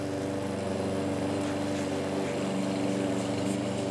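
A lawn mower's engine drones steadily while mowing grass, a constant buzzing hum with no pauses throughout.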